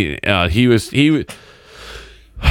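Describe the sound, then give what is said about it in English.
A deep, audible breath, drawn for about a second as a breathy rush, comes just after a short burst of voice, and another voice starts at the very end. “The way you took that deep breath like that makes me think you didn't say what you really said.”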